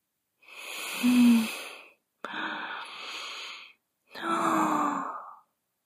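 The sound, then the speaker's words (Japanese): Deep, slow breaths from a person trying to calm down: three long, airy breaths in a row, each lasting over a second with brief pauses between, heard alone with no talking. “落ち着いて深呼吸しよう。”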